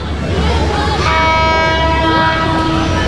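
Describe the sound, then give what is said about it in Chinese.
A train passing with its horn sounding: continuous loud rail rumble throughout, with a sustained, harmonically rich horn blast entering about a third of the way in and holding to the end. “这样的声音在现在的圣心车站已经听不见，好多从前的画面像是随着列车经过隧道开进了记忆里。”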